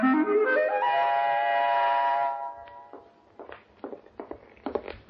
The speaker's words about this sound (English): Go down them steps, baby.